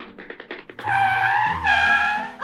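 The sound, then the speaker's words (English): A cartoon forklift being driven in a warehouse: a few short sputters give way to a loud, sustained engine whine with squealing, tire-like tones that shift partway through and lift sharply at the very end. “Whoever is driving the forklift, stop doing that.”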